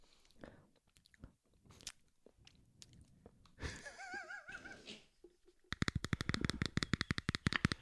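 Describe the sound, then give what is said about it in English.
Someone quietly eating egg salad. Soft chewing and wet mouth sounds are broken by scattered clicks and a stretch of rustling, then a rapid run of crisp ticking near the end. “Let her eat her egg salad.”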